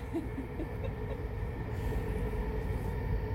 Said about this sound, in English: whether we're driving the train that's just going past